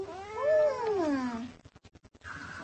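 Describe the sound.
An orange cat gives one long, drawn-out meow that climbs and then sinks in pitch, followed by a rapid series of short soft pulses and a brief further sound at the end.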